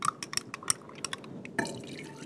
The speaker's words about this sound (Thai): ก็สามารถที่จะเอาน้ำต้มสมุนไพรอะค่ะผสมลงไปได้นะคะอันนี้คนเบาๆเพื่อไม่ให้เกิดฟอง